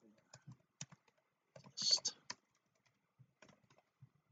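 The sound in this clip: Faint keystrokes on a computer keyboard as a password is entered while setting up a blog, scattered taps with a brief quick burst of typing in the middle.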